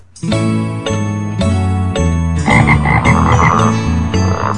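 Frogs croak in a pond in a loud, continuous chorus of overlapping, throaty calls with a rough pulsing texture, steady throughout and with no voices.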